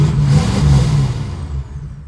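A bus engine revs as the bus is put into gear, a loud, steady low rumble holding for about two seconds with no other sounds.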